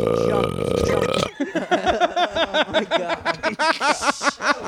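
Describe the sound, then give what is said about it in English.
Many short, croaky burps fired off in a fast, rhythmic string like burped syllables, loud and repeated, following a brief steady tonal sound at the start. “Oh, my God. We just burped for 30 minutes.”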